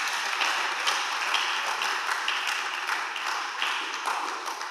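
Congregation applauding in a church, a sustained, fairly loud patter of many hands with sharper individual claps popping out here and there, tapering slightly near the end.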